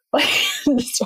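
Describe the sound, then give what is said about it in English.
A voice imitates a loud burp from an office coworker who burped after noisy sips, a rough voiced burst followed by two shorter bursts, loud and alone. “he used to just burp. Like, he would take these like really loud sips. He'd be like, and then be like,”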